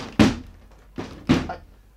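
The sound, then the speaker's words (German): A wooden door is shoved with dull, heavy thumps, three in all: one hit, a pause, then two more close together, each with a short boomy decay. “Ich stumpf die Tür ganz einfach mal auf.”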